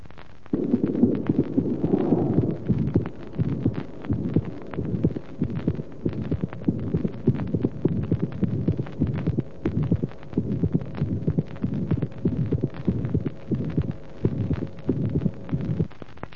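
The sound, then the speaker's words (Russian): Heartbeat of a heart with a complex defect: a steady run of many beats in a multi-part rhythm of up to six tones, each cycle blurred by a low, humming systolic murmur. “картина порока сложна, она включает в себя многочленный ритм до 6 тонов, систолический шум различной интенсивности над грудиной. Второй тон не усилен. Прослушайте запись.”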